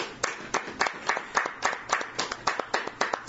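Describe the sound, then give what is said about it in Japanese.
Applause celebrating a grandfather's 81st birthday and a grandchild's high school graduation: many sharp claps in a steady, even rhythm, fairly quiet, with no voices. “佐々木芳弘さんが満81歳、それから、原田の理央さんが高校の卒業式ということで盛大な拍手でお祝いをして”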